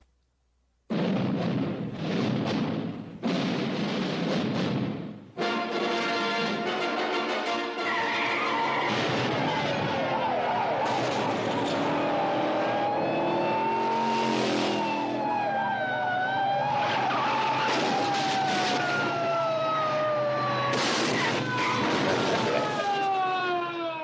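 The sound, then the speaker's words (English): Trailer audio for the 1981 film Cannonball Run: after a brief quiet start, loud roaring car engines, wailing sirens with rising and falling tones, and explosive bursts pile up in a dense, continuous mix. “We are reviewing and discussing today the film Cannonball Run, which was released on June 19th, 1981. Todd, do you have a trailer available? If so, could you please roll it?”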